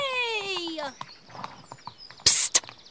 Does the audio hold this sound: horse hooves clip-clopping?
yes